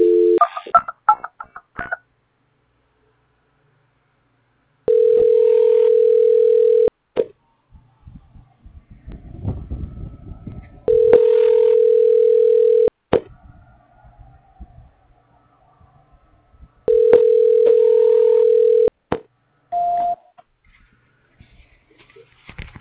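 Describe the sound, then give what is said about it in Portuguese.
Telephone line tones during a call transfer: quick keypad beeps open, then three long steady low tones of about two seconds each, separated by quieter gaps with soft clicks and brief beeps, and a short tone near the end. “Só mais um momento que eu vou transferir de novo aqui. Transferência.”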